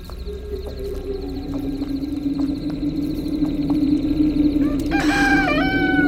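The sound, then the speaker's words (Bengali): A mobile phone alarm set to a rooster crow bursts in near the end with a loud, harmonic crowing call, following several seconds of a steady low drone. “ঠিক সেই সময় হঠাৎ আমার মোবাইলের অ্যালার্মটা মোরগের ডাক ছেড়ে বেজে উঠল কোক্কর কো”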